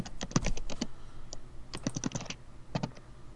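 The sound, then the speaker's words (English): Typing on a computer keyboard: many sharp plastic key clicks in quick irregular bursts separated by short pauses, fairly faint, with no voices. “So, if I type in”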